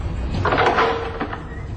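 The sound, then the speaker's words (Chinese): A wooden door creaks slowly open by itself, a drawn-out, wavering mid-pitched groan lasting about a second over a low, steady background hum. “跟住伴随着一股浓郁的血腥味，那道门自动缓缓地打开，”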